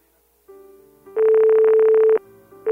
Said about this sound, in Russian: Да, нам кто-то пытается еще дозвониться.